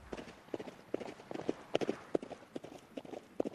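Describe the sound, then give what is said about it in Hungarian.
Hoofbeats of horses racing at a gallop through scrubland below a castle hill, with many sharp, fairly quiet clops in an uneven, driving rhythm and no talking. “A várdomb alatti cserjésben versengtek, ki tud gyorsabban vágtatni.”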